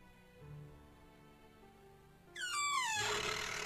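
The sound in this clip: A window being gently pushed open gives a short, squeaky creak with a falling pitch. It breaks in late over a quiet low hum.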